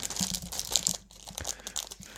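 Plastic wrapping crinkles as a packaged item is unwrapped, making many quick, light crackles and rustles. The sound is fairly faint, with a brief lull partway through.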